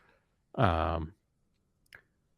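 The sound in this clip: A single sharp computer mouse click during a demo of livestreaming video software, short and faint, coming after a brief burst of voice.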